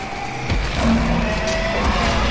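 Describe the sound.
Tires squeal as a car loses traction and skids, a brief high screech over a loud roaring engine.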